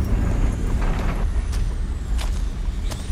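Air brakes of a bus pulling to a stop: a few sharp hissing bursts over a steady, dense engine rumble and road noise.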